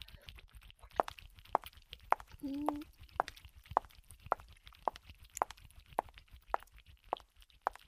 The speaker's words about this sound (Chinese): 听脚步声，看来有别的成员又过来了